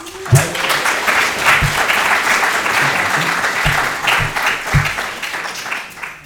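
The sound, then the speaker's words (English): Lively applause greets a film producer and director at a screening talk with students, dense continuous clapping punctuated by a few low thumps, gradually easing toward the end. “Please welcome producer Denzil Monk and director Christopher Morris.”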